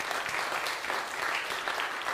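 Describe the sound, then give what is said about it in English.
Congregation applause during a church service: a steady, dense clapping that holds an even level for the whole two seconds, with no clear voices over it. “I think we need to give the Lord another clap offering on that.”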